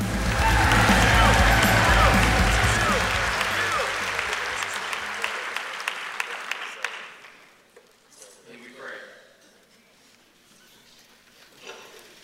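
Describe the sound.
A church audience gives a guest speaker warm, loud applause mixed with some cheering. The clapping thins into scattered claps and dies away partway through, leaving only quieter sounds.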